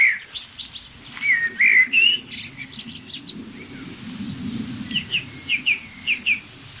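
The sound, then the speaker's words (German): Chaffinch "pink" alarm calls: a short series of sharp, bright, high-pitched call notes repeated at irregular intervals, with other faint bird chirps and a low rumbling background. “Meist sieht man so in der Nähe dieser Pinkrufe entweder noch andere kleine Vögel hektisch hin und her fliegen, die einfach checken wollen, was macht Buchfink so nervös”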